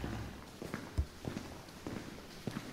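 Footsteps walk through the entranceway into South Africa's Kentron Circle nuclear weapons manufacturing plant: several soft, irregular treads with low thuds, fairly quiet and without talk.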